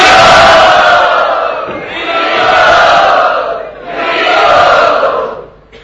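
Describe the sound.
An audience cheers loudly to welcome a guest at the Sri Radha Gopinath temple, and the roar of many voices swells three times before fading out.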